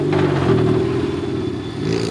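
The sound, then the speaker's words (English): Loud, continuous engine roar from autonomous race cars running practice laps on a 2.5-mile oval speedway in Indianapolis, a steady droning rumble that dips slightly near the end before swelling again. “It's a sunny fall afternoon as teams make practice laps on the 2.5-mile oval at the Indianapolis Motor Speedway.”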